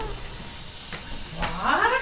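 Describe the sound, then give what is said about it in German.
Ninu, a pet cat, lets out a drawn-out meow toward the end, its tone bending upward over a low background hum. “Es gibt Tage, in denen spricht Taslima Nasrin nur mit ihr, Ninu, der Katze.”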